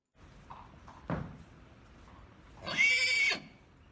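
A colt neighs in one loud, shrill whinny near the end. It follows a dull thump and a few faint, soft sounds.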